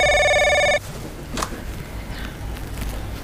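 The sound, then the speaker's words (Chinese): A telephone rings with a bright electronic trill that cuts off after under a second, as if answered, leaving quiet room noise with a faint knock. “哎，对不起，我先接个电话。”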